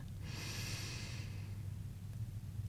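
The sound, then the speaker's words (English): One slow, deep breath drawn in, a soft airy hiss lasting about a second over a low, steady background hum. “Join me in breathing in and out very slowly. Let's do three times. Breathing in”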